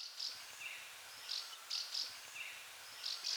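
House martins giving contact calls: faint, high, thin chirps recurring in loose pairs and clusters over a quiet background.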